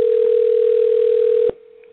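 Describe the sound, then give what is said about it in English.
A telephone dial tone sounds while a call is being dialed. A loud, steady, unbroken hum runs for about one and a half seconds, then drops abruptly to a quieter tone that carries on. “So we're dialing her up right now and looking forward to it.”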